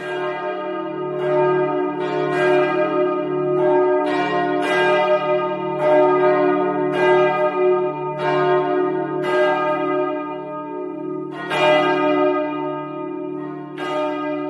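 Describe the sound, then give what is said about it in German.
Church bells of St. Petri peal continuously, with many resonant overlapping strokes at a steady pace above a deep, sustained humming tone. “Ja, und da könnt ihr dann St. Petri also immer noch ein bisschen hören.”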